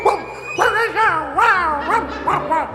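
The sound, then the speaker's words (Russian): Voices imitate two dogs, a sleek black-grey one and a shaggy red one, with a rapid series of loud, yelping barks and whimpering, pitch-bending yips in a fairy-tale reading. “Их голоса становились все громче, все отрывистее и постепенно перешли в лай. А сами, не надев шубы, превратились в собак.”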